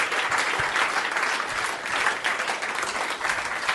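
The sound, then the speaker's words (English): Audience applause fills the room at the close of a live comedy show, a dense, steady clapping that holds loud and even throughout with no pauses. “ladies and gentlemen, let's have a big round of applause for Chris Rich and Matt Stewart's 5 Disgusting Mysteries.”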